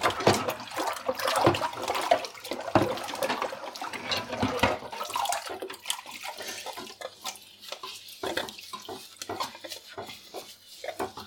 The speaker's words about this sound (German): So, jetzt mal eine Kelle. Die lasse ich kurz einweichen.